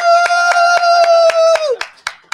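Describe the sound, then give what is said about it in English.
A team claps in unison as a guest comes in: loud, evenly spaced rhythmic hand claps. A long, held tone runs under the first part and drops in pitch before the final few claps. “did you have to pay your team extra for the applause?”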